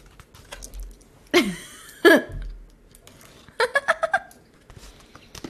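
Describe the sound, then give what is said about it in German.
A blade cutting open a parcel sealed with packing tape makes two scratchy, sweeping rasps, followed by a quick burst of several short, sharp rasping strokes. “Ich schneide hier gerade mein Paket auf. Hey, warum musst du das aufschneiden? Ja, weil das ja Klebeband mit Klebeband.”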